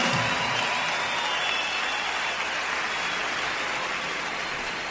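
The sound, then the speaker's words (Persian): Concert audience gives sustained applause for an orchestra conductor. Dense, steady clapping fills the whole stretch and eases off slightly toward the end. “به افتخارشون یه دست خیلی خیلی محکم تقاضا میکنم.”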